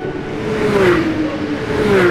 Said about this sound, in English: People who drive in NASCAR races drive special cars that are made to go super fast, over 200 miles an hour.